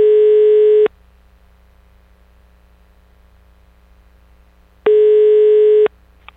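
A telephone ringback tone sounds while a call is placed. Two steady, loud beeps of about a second each are separated by a long silence, with no voices.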